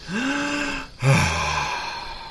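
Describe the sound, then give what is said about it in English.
Several people take a deep breath together on cue, a drawn, partly voiced inhale breaking into a louder sighing release, with no words spoken. “Let's take a deep breath all together.”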